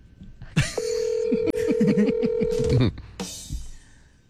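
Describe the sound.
A steady telephone ringing tone sounds as a call is dialed, holding for about two seconds while people talk over it. The voices continue after the tone stops.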